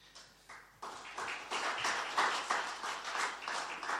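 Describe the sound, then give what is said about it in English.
Applause from a church audience welcoming a speaker: dense, steady clapping that swells after about half a second and holds loud and even to the end, with no talking. “can we put our hands together as we welcome Andre?”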